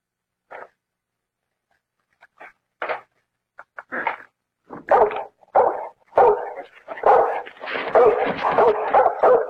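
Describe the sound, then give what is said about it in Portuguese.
A dog barks behind a door, starting with a few sparse, faint yips and short barks, then building into loud, rapid and almost continuous barking. “Abre essa porta! Abre, abre! Não, não espera. Esse cachorro é uma besta! Esse cachorro é um cavalo! É um animal!”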